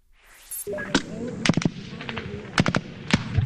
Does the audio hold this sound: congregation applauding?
no

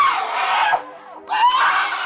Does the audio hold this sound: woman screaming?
yes

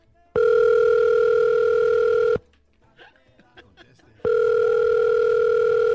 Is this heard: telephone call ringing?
yes

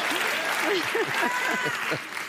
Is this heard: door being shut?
no

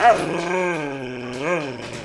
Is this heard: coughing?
no

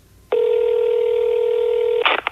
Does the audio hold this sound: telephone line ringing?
yes

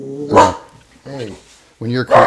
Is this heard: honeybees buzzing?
no

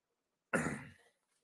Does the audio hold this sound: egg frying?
no

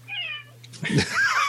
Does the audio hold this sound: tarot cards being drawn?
no

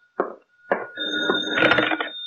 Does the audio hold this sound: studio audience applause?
no

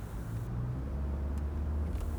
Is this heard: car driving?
yes

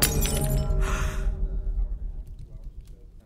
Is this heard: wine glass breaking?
yes

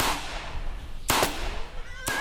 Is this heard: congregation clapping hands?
no

